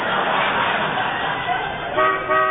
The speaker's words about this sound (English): Will you please stop honking?